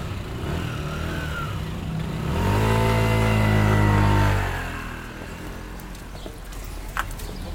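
A scooter engine revs up into a loud, steady drone for about two seconds, then fades away as it rides off, leaving quieter background noise.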